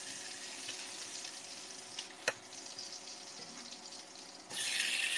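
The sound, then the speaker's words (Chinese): Garlic cloves sizzling in hot oil in a pan: a quiet, steady hiss with one sharp click partway through, then the sizzle swells louder near the end. “放进我们的小蒜瓣儿，呜，滋滋滋的声音，是油在滋滋滋的声音。”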